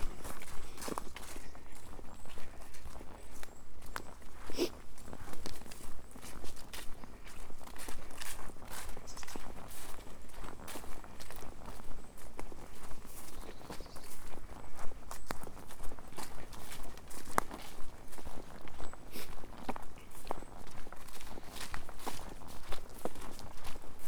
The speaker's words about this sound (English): And I'm just walking under some sweet chestnuts.